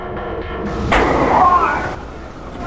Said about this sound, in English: He's been shot. He's been shot. Lee Oswald has been shot.